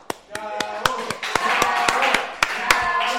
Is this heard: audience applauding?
yes

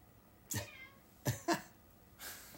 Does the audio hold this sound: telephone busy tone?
no

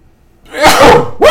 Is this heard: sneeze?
yes

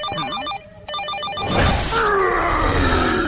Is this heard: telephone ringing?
yes

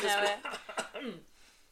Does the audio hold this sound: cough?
yes

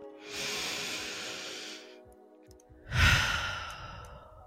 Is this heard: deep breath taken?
yes

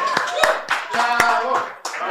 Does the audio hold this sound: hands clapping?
yes

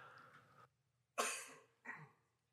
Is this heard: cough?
yes

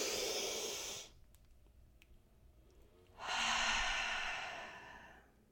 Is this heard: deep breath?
yes

